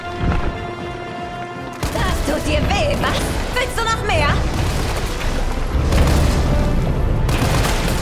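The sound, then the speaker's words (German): Loud gunfire from a weapon that has just been put into a charging station, in a horror audio drama. Dense, rapid bursts begin about two seconds in and continue to the end, mixed with other dramatic sounds. “Jill steckte die Waffe in die Ladestation und schoss weiter.”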